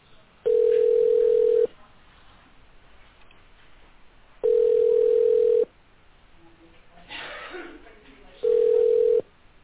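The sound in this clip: Telephone ringback tone while placing a call: three steady mid-pitched beeps, each about a second long and evenly spaced with long gaps, over faint line hiss.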